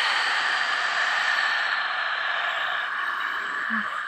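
A person exhaling deeply during a breathing exercise, a long, steady breathy hiss that continues for several seconds without a break, with no talk.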